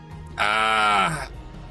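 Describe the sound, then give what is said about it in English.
A human voice imitates a groaning sound coming from inside a room: one sustained, nasal, bleat-like moan lasting about a second, dipping slightly in pitch as it ends. “coming from inside the room, like a groaning sound”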